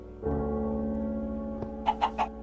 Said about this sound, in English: I trapped a chicken inside of my cave system.